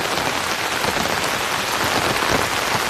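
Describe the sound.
Rain drums on an open umbrella, a dense, even patter of many drops that stays loud and constant for three seconds without pauses.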